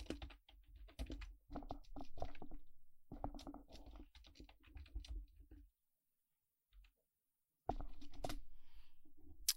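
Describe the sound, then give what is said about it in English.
Rapid typing on a computer keyboard while entering a Google search, with many quick key clicks in irregular bursts, a short silent pause, then another dense run of keystrokes. “Go open up Google on your computer and yep. type in the words, how many books has R.L. Stein written?”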